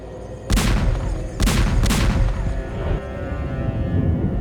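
Gunfire volley: a few sharp, loud blasts crack out in quick succession over a continuous rumbling din, followed by a fainter report near the end.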